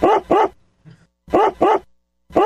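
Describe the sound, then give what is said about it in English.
A dog bark sound effect plays: two pairs of sharp, loud barks separated by a gap of near silence, then the start of another bark just as the sound cuts off. “Play the dog bark more.”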